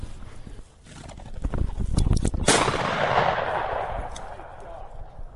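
A single loud gunshot rings out during a hunt with a pointing dog. It is a sharp blast with a long fading tail, preceded by softer rustling and movement.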